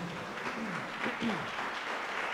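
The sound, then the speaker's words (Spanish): A church audience applauds during a service, a dense, steady wash of clapping with voices audible over it, holding at an even level throughout. “¿Cuánto le damos ese fuerte aplauso”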